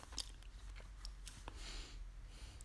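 Faint crisp crunches come from biting into and chewing a Fuji apple, with a few sharp crunchy bites followed by softer, moist chewing.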